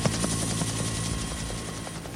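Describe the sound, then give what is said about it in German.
Helicopter rotor thudding steadily and loudly, a continuous chopping drone with a high engine whine that fills the whole stretch alone, easing very slightly toward the end. “Ein Hubschrauber kommt.”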